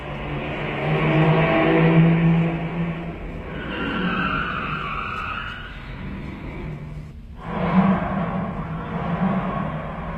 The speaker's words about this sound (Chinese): 汽车又开走了，大家松了一口气。